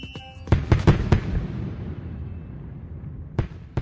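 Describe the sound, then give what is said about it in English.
Fireworks shell launched by a gunpowder charge: a cluster of sharp bangs and pops, then a long rumbling decay, then a few more sharp cracks near the end. “the gunpowder launches the shell high into the air.”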